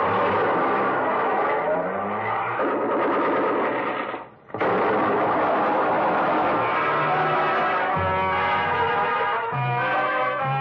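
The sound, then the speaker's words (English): Plymouth car engine running with the hand throttle pulled out all the way and the car shifted into low: a loud, continuous rattling engine drone with a brief dropout midway, then the revving resumes with shifts in pitch. “pressed the starter with the heel of my hand. I switched on the lights, pushed the clutch with my left hand, used my right to shift it into low, Then I pulled the hand throttle out all the way and let it go.”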